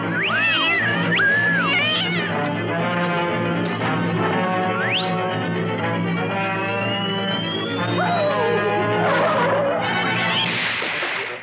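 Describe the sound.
A cat yowls in several long, shrill, wavering cries that bend up and down in pitch, loud over a dense, steady backing of sustained tones.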